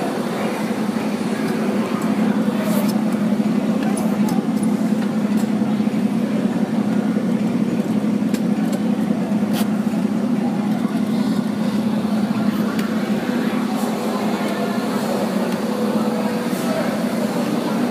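A Disney park ride vehicle and its engine run with a loud, steady rumbling drone that holds evenly throughout, with no clear start-up surge.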